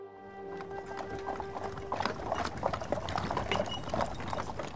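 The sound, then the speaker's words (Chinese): Hooves clip-clop as a horse-drawn carriage comes to a stop: many quick, irregular hollow knocks, growing denser and louder after the first couple of seconds. “马车停了下来”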